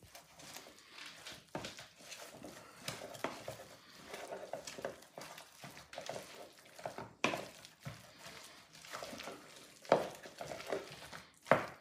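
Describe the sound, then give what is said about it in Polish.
Stirring of a mayonnaise and sour cream spread seasoned with salt and sugar, heard as many irregular soft scrapes and clicks of a utensil against a dish, continuing steadily throughout with no talk. “No i co robimy? Mieszamy, żeby zobaczyć, jak to będzie smakowało.”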